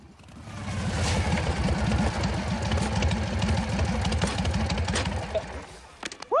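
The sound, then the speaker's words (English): A motorcycle engine idles as another bike arrives, a low, throbbing rumble with an even pulsing beat that swells early and then holds steady, ending with a short vocal exclamation. “Henry drops Luther, grabs China by the neck, and straddles his bike. Another bike arrives, the rider wearing sneakers.”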